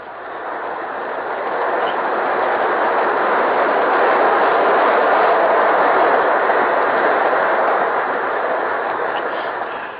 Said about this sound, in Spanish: Por ahí viene el tren.